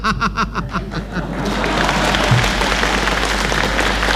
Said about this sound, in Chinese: 大家都着急了，只给您鼓掌。